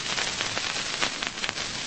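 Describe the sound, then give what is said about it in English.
Rain falling as people arrive at a house, a steady, even hiss with a faint patter of drops running through the whole clip, with no voices. “there's that rain again. Hurry. We just made it in time.”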